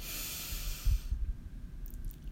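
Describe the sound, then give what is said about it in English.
A deep breath drawn in through the nose during a guided breathing exercise: a soft, airy hiss lasting about a second, then near quiet with faint low thumps. “Breathe in and out.”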